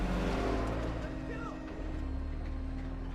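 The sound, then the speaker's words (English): Military vehicles drive past with a steady, deep engine rumble and a low droning hum. The noise dips slightly midway, then holds level to the end. “The military vehicles pass the grey-haired priest.”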